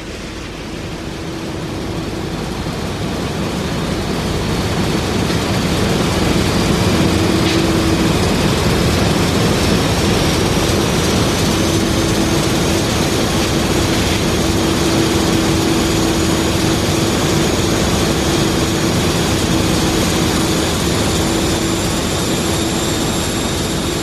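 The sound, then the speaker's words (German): A 3000 hp diesel engine drives a fishing ship at sea on a fishing voyage to East Greenland, producing a loud, steady drone with a constant low hum and faint high tones throughout, without voices. “Das Schiff erreicht das offene Meer. Ein 3000 PS Dieselmotor treibt das Schiff, erzeugt Strom, Wärme,”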